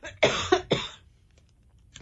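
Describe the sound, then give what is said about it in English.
Three harsh, close coughs burst out during a medical talk, loud and rapid in succession, then give way to near silence. “just a sip of water to stop that coughing”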